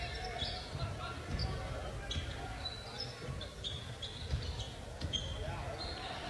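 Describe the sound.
A basketball dribbled during a game, with repeated dull thuds at an irregular rhythm under a voice talking continuously over the court noise.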